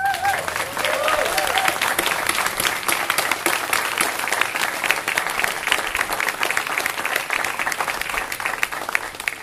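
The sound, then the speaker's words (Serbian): Audience applause at a literary evening, a thick, sustained wash of many hands clapping that stays loud and even from start to finish without a pause. “Aleš Dravinac, molio bi aplauz.”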